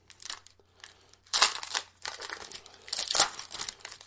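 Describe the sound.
Foil wrappers crinkle and tear as 1995 O-Pee-Chee Premier Series 2 hockey card packs are opened, in several bursts of rustling and ripping with short pauses between them and no talking.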